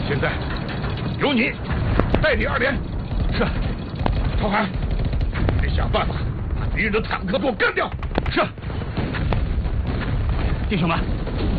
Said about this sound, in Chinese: 敌人坦克火力太猛了